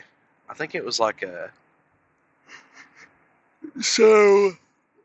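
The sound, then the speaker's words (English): A long, drawn-out voiced yawn near the end, rising to a sustained tone before cutting off, after a few short bursts of speech-like vocal sounds and a pause. “sorry for the yawn there.”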